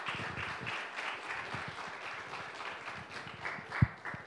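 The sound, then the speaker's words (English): An audience claps steadily to welcome and thank Gary at a gathering. The applause is a fairly faint, continuous patter with one sharper thump near the end. “So give her a hand to Gary just to pump her up.”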